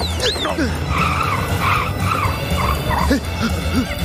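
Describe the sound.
A car skids with squealing tires as it is driven erratically by someone who doesn't know how to drive. A wavering squeal and low rumble run through the whole clip at a steady, fairly loud level.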